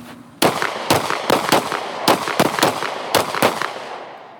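Gunshots from a church security team training course in Forest, Mississippi: a rapid series of many sharp, loud cracks at uneven intervals, each with a short ringing tail.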